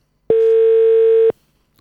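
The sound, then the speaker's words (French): Telephone ringback tone while calling someone: a single loud, steady hum lasting about one second, cut off cleanly and followed by silence. “Cette fois-ci on appelle Simon.”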